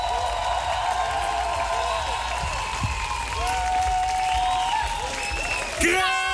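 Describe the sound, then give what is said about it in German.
Audience applause and cheering at a live concert: a steady wash of clapping and crowd noise with sustained musical tones and a voice over it, swelling slightly near the end. “Einen großen Applaus nochmal, könnt ihr nochmal laut sein?”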